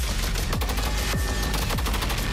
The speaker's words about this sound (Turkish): MMT-76 hem piyade tipi hafif makineli tüfek hem de helikopter platformlarında görev yapabilecek çok amaçlı bir silah sistemi kabiliyetine ulaştı.